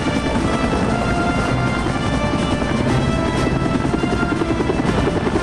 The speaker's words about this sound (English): Rotor blades languidly swoop by overhead as the soldiers split off toward helicopters. Later, 3 Seahawks take off.